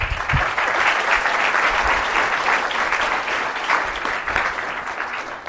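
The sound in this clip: Audience applause welcomes a speaker at a talk: a dense, steady wash of clapping from many hands that holds at an even loudness throughout, with no voices over it.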